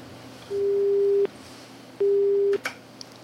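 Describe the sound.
Telephone disconnect tone after a caller hangs up: two steady, mid-pitched electronic beeps, each under a second long, separated by a short gap, followed by a faint click.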